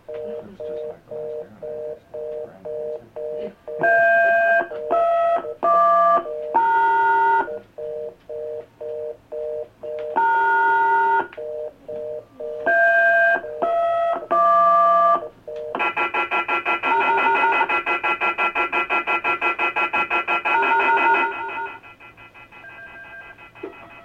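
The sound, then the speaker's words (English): Telephone keypad dialing tones beep in three quick clusters of short pitched tones, followed by a steady sustained tone that then drops away to quiet. No voices. “When I dial off, do I hit the pound sign first?”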